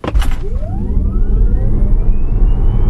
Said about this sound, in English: That's the sound of an electric Tesla SP85D accelerating to 60 miles per